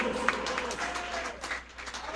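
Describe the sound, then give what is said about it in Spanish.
Congregation applauding in a church service: dense, steady clapping from many hands at moderate loudness, with some voices mixed in. “Dele fuertes aplausos a Cristo en esta tarde, hermanos.”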